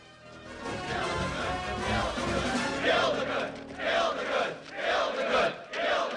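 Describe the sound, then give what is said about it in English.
A crowd of pagans chanting outside, loud massed voices rising in rhythmic, repeated bursts with short gaps between them. “They arrive outside to face a chanting crowd of pagans.”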